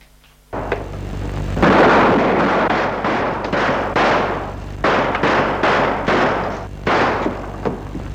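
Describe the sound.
Gunfire as a bullet strikes a man in the forehead: an abrupt loud, harsh blast opens into a sustained rough roar, punctuated by a few sharper bursts toward the end.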